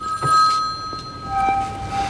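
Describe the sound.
A telephone ringing in a movie scene: steady electronic ring tones held at one pitch, then a lower tone taking over partway through, over faint background noise.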